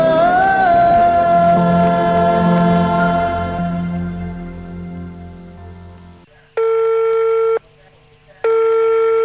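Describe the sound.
A telephone rings back on a call as two long, steady electronic tones separated by a short pause, sounding after a fading, sustained tonal passage.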